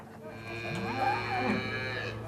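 Cattle mooing on a farm during a drought, a few drawn-out, overlapping lowing calls with wavering pitch that carry over a steady background hum.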